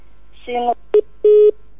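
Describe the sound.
Electronic telephone tones as a call-in line cuts off: a brief two-pitch tone, then a short beep and a longer steady beep at the same pitch, clear and alone.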